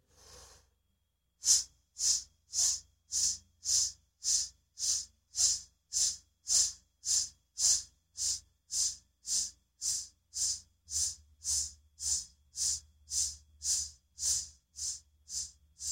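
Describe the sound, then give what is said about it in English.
Breathing exercise: a faint intake of breath, then a deep breath pushed out as a long run of many short, hissing S puffs in a steady, even rhythm of similar loudness, repeated with no pause to inhale. “you're going to take a deep breath and then puff the air but using an S sound. So it should sound something like this.”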